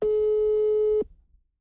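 A telephone line tone sounds while a call is placed. A single steady, mid-pitched beep lasts about a second, stops abruptly, and is followed by near silence.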